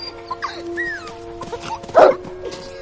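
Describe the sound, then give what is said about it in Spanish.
A dog plays on the grass of a mountain meadow, letting out quick high yips and whimpering barks in an uneven rhythm. A louder bark bursts out near the end. “En la montaña, Sebastián y el perro juegan sobre la hierba.”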